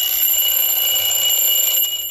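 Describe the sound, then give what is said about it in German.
A simple, mass-produced everyday alarm clock rings in a steady, shrill, high-pitched bell rattle. The ringing is loud and unbroken from start to end, with no voices. “Wecker, einfache Gebrauchswecker.”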